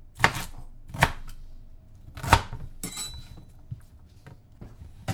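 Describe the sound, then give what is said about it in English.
Food being roughly chopped with a knife, a few sharp, irregular chops on a board with quiet gaps between strikes. “You're going to gather them in the pile. And you roughly chop them. Try to make sure every quarter gets cut at least once.”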